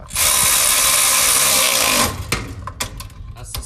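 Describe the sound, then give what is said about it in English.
A Milwaukee electric ratchet runs with a loud, steady, high whirr for about two seconds, then stops, leaving a few lighter mechanical clicks and handling sounds. “So yeah, it's probably electric ratchet time. Cause it is. We do kind of got to get some work done.”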